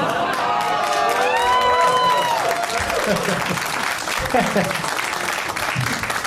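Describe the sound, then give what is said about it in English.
Audience applause rises as a dense, loud wash of clapping mixed with cheering and whoops, with a voice speaking over the opening seconds. “I'm just laughing at pandering for applause.”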